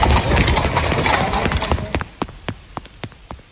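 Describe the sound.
Horse hooves clop as a black horse-drawn carriage pulls up in a rainstorm. A dense, loud rushing wash fills the first half, then a run of sharp, uneven hoof strikes follows and grows sparser.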